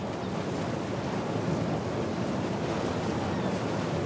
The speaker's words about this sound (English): A white screen transitions to a close-up of turbulent greenish water and whitecaps. The view widens to reveal the wake of a ferry boat crossing the sea on a foggy day.